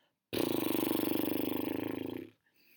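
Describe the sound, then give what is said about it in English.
A fluttering horse-lips exhale during labour breathwork, the lips buzzing in a rapid, even trill for about two seconds before it cuts off and fades away. “or you can exhale through horse lips as well. So that's like a short deep inhale like we just said, and then exhaling through your lips to be a bit like.”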